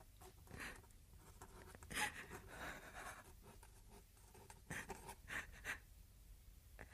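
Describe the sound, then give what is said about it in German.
Pen scratching on paper as Jeanne's hand is guided to sign a document in a German radio drama about Joan of Arc. Soft, irregular scratchy strokes stay faint, with a few slightly louder bursts. “Dies alles bestätige und gelobe ich durch meine Unterschrift dieser Urkunde, deren Inhalt mir vorgelesen wurde. Soll ich ein Kreis oder ein Kreuz machen? Ich kann meinen Namen nicht schreiben. Ich führe dir die Hand.”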